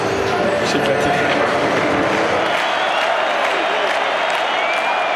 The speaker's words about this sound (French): Deuxième round victorieux et acclamation du public.